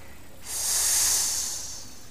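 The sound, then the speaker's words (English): A single sustained hiss, voicing a snake in a folk tale: bright and airy, it swells in quickly, holds, then slowly fades, loud and alone with no talk. “He hissed.”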